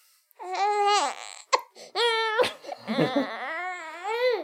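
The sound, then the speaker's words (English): A newborn baby boy cries in a few drawn-out wailing bursts, separated by short catches of breath. The cries are loud and high, with a wavering pitch, and no voices can be heard. “And the noise you just heard is the reason why. I just became a dad to my own magic baby boy.”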